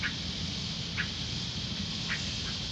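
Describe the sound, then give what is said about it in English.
Short nasal calls of gray catbirds, two birds present, a few brief mewing notes spaced about a second apart, faint over a constant hissing background. “But that's the cat bird. There's two of them there.”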